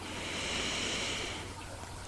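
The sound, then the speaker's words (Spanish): A deep inhale through the nose during a guided breathing exercise: a faint, airy hiss lasting about two seconds that eases off toward the end. “Continúa unos segundos más. Inhala profundo por la nariz.”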